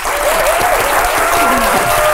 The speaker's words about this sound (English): Wow, do you ever get tired of that? Does an actor ever get tired of applause?